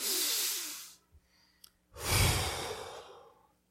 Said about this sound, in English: Just as we breathe in the air, everybody take a deep breath.